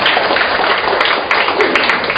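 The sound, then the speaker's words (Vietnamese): Applause from an audience welcoming a man invited up as a guest: a loud, continuous wash of clapping that holds steady, with no clear pauses. “Rồi, chúng ta cho một tràng pháo tay gặp anh bạn này.”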